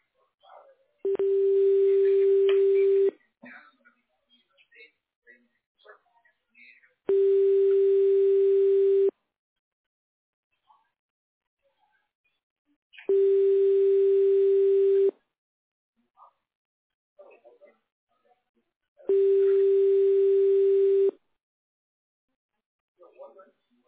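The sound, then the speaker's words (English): Telephone ringback tone plays while a call is being connected: four long, steady mid-pitched beeps, each about two seconds, evenly spaced with quiet gaps between them. “Please wait a moment while your call is connected.”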